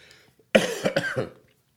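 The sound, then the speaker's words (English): A short fit of coughing: several rough, fairly loud bursts in quick succession with no talk around them, then quiet. “I'm learning, and don't let my cough annoy you.”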